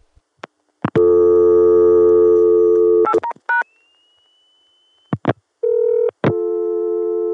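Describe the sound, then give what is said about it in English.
Telephone call-progress tones as a test call is routed from Atlanta through an electronic switching exchange to a ring-down line on a Connecticut machine: clicks, a long steady buzzing tone, quick beeps, a thin high tone, then more steady tones, with no voices. “227 is a ring down on the Connecticut machine, and I'll demonstrate now how it goes through from Atlanta, and then I'll try dialing it on the other machines.”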